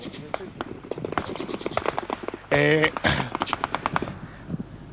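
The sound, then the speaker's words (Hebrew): Battle gunfire with a tank firing during a fight to cross a canal: many sharp, irregular cracks and bursts, with one louder, sustained blast near the middle, all fairly loud and continuous. “ושם הלחימה הזאת, שומעים גם את הקולות ברקע. טנק שלנו ירה.”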